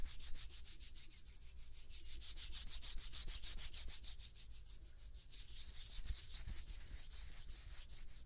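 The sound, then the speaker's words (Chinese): Hands rub briskly together before a massage, making quiet, rapid, evenly repeated swishing strokes of skin friction that continue steadily throughout with no voices. “我看评论说好多小朋友想听搓手的声音，给大家安排。”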